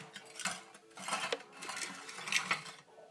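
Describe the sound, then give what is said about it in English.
A mixing bowl being moved, giving a few light clinks and knocks that come in uneven bursts, with no talk. “I'm going to bring that mixing bowl over here now.”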